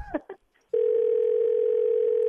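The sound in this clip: Continuous telephone dial tone while calling someone back, a loud steady hum that begins abruptly after a brief voice and holds unbroken to the end.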